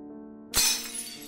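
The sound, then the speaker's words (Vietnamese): Ceramic bowls break in a kitchen with one sudden clattering crash that quickly fades, heard over a steady, faint low tonal background. “Bà Hoáng chưa nói hết câu thì ở dưới bếp truyền lên một tiếng hét, kèm theo tiếng bát vỡ loảng xoảng.”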